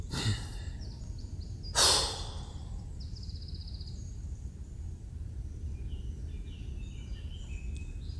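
A loud, breathy exhale after a breath drawn in through the nose and held, one short forceful whoosh early on, then quiet with faint bird calls in the background.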